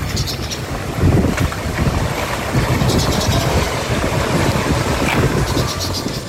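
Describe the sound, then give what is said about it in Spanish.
Sewage water gushes from an overflowing street drain in Santa Marta and spills across the street: a steady, loud rushing and splashing wash with wind buffeting the microphone throughout. “Lo que ven en lo que escuchan y se ven las imágenes para quienes nos acompañan en YouTube es una alcantarilla que está rebosada, en la que empieza a salirse el agua, aguas negras, en una calle”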